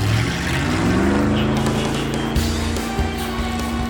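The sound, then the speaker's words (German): An inflatable boat's outboard motor is heard from the beach, a steady droning engine hum with a few small bumps, running alone throughout with no voices. “bis sie vom Strand her den Motor des Schlauchbootes hörten”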